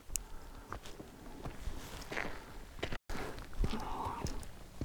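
Footsteps along a hiking trail from Torfhaus toward the Brocken on a cool early morning, with soft, irregular scuffing steps over a steady background hiss.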